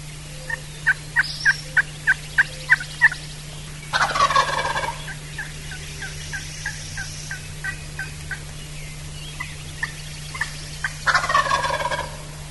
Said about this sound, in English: And when he gobbles, he's really close.